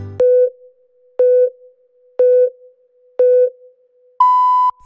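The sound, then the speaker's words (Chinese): Hourly radio time signal pips marking the top of the hour on Beijing time: four short, mid-pitched beeps spaced a second apart, then a longer, higher final tone, alone on a clean background. “现在时刻，北京时间11点整。”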